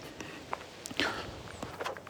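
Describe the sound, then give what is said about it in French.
Soft footsteps of a person walking, faint and quiet. A few irregular steps fall at uneven intervals, with a slightly firmer step near the middle and no voices. “Parce que là, moi, je marche, je fais de l'activité physique.”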